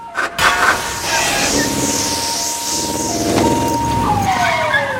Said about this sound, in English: A police car speeds by, sees the plane, and turns around, making his way back towards them.